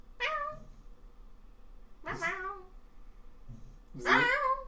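A pet cat gives three drawn-out, fairly faint meows spaced about two seconds apart, each rising and then falling in pitch.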